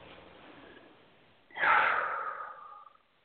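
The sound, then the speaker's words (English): A deep breath, heard as one long, airy breath that swells quickly after a quiet start, holds for over a second and then tapers off into silence. “Take a nice deep breath.”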